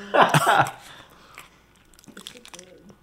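Chewing of a Reese's peanut butter candy during a Halloween mukbang: moist, crunchy bites that are loudest at first and then settle into softer, scattered smacks and crunches.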